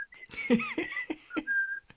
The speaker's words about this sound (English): and they're like, quit whistling. I'm like, I didn't even know I was whistling.